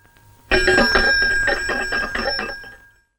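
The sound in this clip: A bell rings loudly on its own, with rapid repeated metallic strikes over a sustained bright tone lasting about two and a half seconds before it fades out.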